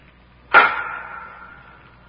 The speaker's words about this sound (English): Any idea what that rapping is, LeBrun? No, but it sounds as though it might be coming from our prison chamber.